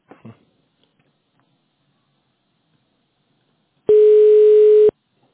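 A telephone transfer tone sounds as a business call is switched to another person: one steady beep lasting about a second, loud and alone. It follows a brief faint sound near the start.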